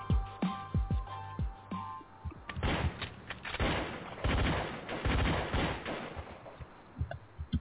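Gunfire: a few sharp, separate shots, then a dense, loud, sustained barrage of rapid overlapping shots that keeps going to the end.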